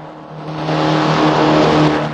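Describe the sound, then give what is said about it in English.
Engine roar of a motorboat speeding away from a jetty, a loud, steady drone with a low hum that swells during the first second and then holds. “Now in Billy Bob's boat, the driver zooms away from the jetty and the unconscious ranger.”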